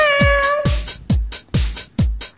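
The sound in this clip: A human voice imitates a cat meowing: a short tonal mew, then a quick series of about five clipped, downward-sliding meows in a steady rhythm, fairly loud and alone.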